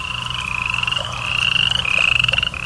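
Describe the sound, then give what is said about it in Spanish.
Frogs croak and crickets chirp at night: a steady high insect trill runs over rapid, pulsing croaks that grow louder partway through. “El canto de las ranas y de los grillos.”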